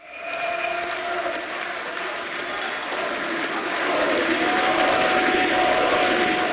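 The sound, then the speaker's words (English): A crowd of far-right party supporters cheers and applauds a landslide state election victory in Saxony-Anhalt, Germany. The roar is dense and continuous and swells slightly louder in the second half. “That's the sound of supporters of the far-right AfD celebrating a landslide election victory in the former East German state of Saxony-Anhalt.”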